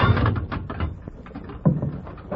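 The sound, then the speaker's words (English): A jail cell door shuts and locks with a few dull clunks and sharp clicks, muffled and thin in tone. “The sheriff was accompanied by Mort Prentice, Clem Sawyer, and Ace Phillips when he took Dick to jail and locked him in a cell.”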